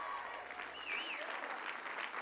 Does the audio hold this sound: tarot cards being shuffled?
no

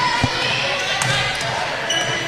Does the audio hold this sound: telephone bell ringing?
no

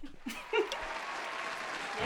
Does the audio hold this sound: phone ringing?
no

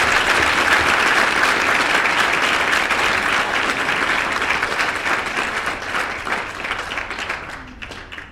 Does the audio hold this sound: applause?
yes

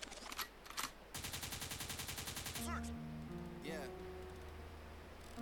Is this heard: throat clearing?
no

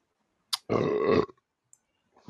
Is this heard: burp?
yes

